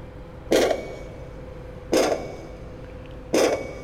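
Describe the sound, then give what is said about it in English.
Underwater pile driving into the seabed in Swansea Bay, recorded by hydrophone about 700 metres away: three heavy, evenly spaced thumps, each striking sharply and ringing down over a low steady background rumble. “you then get pile driving, which is a real thumping, cranking noise, where these piles are driven into the seabed.”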